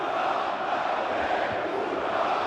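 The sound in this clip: Football fans chant as a crowd, a broad, continuous roar of massed voices with no clear words, holding a steady, moderate level.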